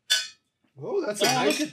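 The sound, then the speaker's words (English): A single bright clink of glasses raised in a toast, a short ringing tone that fades quickly, followed after a pause by people talking. “as always, I'm going to raise my glass. Let's do this. Cheers”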